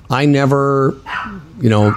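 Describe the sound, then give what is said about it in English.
Two dogs bark at the door of a home studio, drawn-out, strongly pitched barks and yips coming in a few loud bursts with brief gaps between. “can you hear the dogs? You can? Hang on a second. That's why I was laughing. Yeah, you can tell. Both of my dogs are barking at the door of the studio.”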